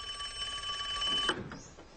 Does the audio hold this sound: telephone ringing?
yes